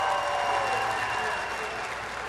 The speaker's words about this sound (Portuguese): Eu queria aqui pedir uma salva de palmas a todos os professores e professoras de Goiânia e de Goiás.